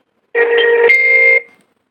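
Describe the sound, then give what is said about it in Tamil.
An incoming phone call rings once: a single bright electronic tone with steady harmonics sounds alone for about a second, shifting its tone briefly midway before cutting off. “இன்னொரு கால் இந்த பக்கம் வந்துச்சு அது cut பண்ணி விட்டேன்”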